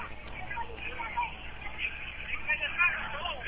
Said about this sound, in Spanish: Si usted escucha la algarabía de la gente aquí, porque no nos vamos a dejar, como le digo.